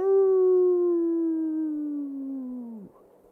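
Wolves howling in the distance: one long, steady howl that slides gradually lower in pitch for nearly three seconds before breaking off abruptly, heard alone.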